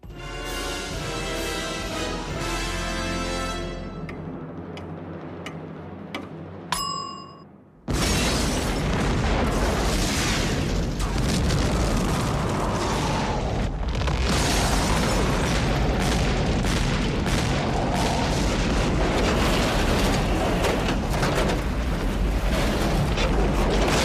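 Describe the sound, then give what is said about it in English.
A massive explosion from Batman: Mask of the Phantasm, a place wired to blow, cuts in abruptly after a stretch of tonal music and continues as a loud, sustained, rumbling roar. “Andrea, you've got to get out of here. The place is wired to explode.”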